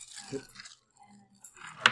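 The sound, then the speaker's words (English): Dice tossed during a tabletop game give one brief, sharp clatter near the end, after a quiet stretch with faint, softer rustling sounds earlier. “I haven't rolled yet. I tossed the dice to somebody. I actually didn't intend that it was rolled yet.”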